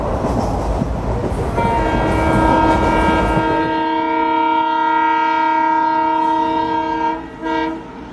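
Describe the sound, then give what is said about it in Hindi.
Express train at an Indian railway station platform: rushing, rumbling rail noise gives way to a loud, long, steady-pitched horn blast held for several seconds, then cuts off into quieter rolling noise. “कृपया ध्यान दीजिए तेरह हजार आठ उद्यान आभा express Rohtak के रास्ते श्री गंगानगर से आने वाली आगरा कैंप टूडला के रास्ते हावड़ा को जाने वाली प्लेटफॉर्म नंबर चार से चलने को”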